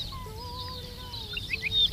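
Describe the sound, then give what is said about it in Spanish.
Arricotí, a lark, sings its tití-tití call: thin, sustained whistled notes with brief higher chirps above them, faint and steady, with no voices. “Arricotí, se llama como tal porque es una emulación de la onomatopeya que produce en el canto, el tití-tití.”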